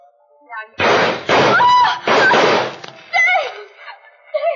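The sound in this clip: A gunshot in a radio drama: four loud, sharp bursts stand out among shouting voices, with the loudest cracks close together early on and a final burst a moment later.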